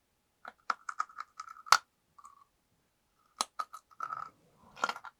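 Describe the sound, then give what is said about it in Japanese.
Chewing of salted food, crisp crunchy clicks coming in several quick clusters separated by brief pauses, sharp and dry with no talk. “食べていきます。”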